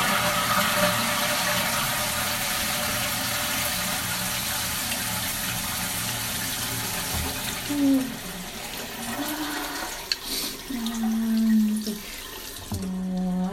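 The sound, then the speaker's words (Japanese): A toilet flushing gives a broad rushing gush of water for several seconds, which thins into gurgling and lower tonal refilling sounds toward the end. “じゃあ流しましょう。”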